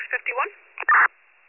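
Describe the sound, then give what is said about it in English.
A brief, flat cancellation tone on a narrow-band county emergency dispatch radio channel follows a short spoken transmission. It is loud and steady for a fraction of a second, then the channel falls to faint hiss. “I'll drop cancellation tones for 39.”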